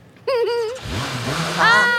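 A car engine revving, a strong buzzing tone that wavers through short surges and then climbs higher in pitch near the end.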